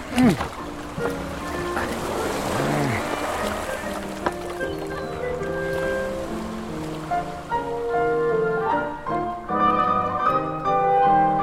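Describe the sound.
A rowing boat moves across a sea creek in a radio drama adaptation of Agatha Christie's Five Little Pigs, with water sloshing and lapping steadily under the voices of people talking.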